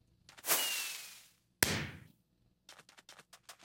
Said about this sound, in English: Now, this is going to be a shorter, higher one. So it will be a much shorter rocket. Yeah. Right, here we go.